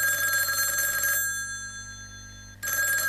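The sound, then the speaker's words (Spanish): An office telephone rings, a loud bright electronic ring that sounds for about a second, falls silent, then starts ringing again just before the end. “¿Ya lo adivinaste? El teléfono.”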